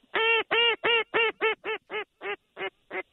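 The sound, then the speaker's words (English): Duck quacks from a flock of teal over marshland: ten loud, nasal calls in a quick, even series, gradually becoming fainter and more spaced out toward the end, with no other sound between them. “Big flocks of teal. Wow, they're just going right over the marshes.”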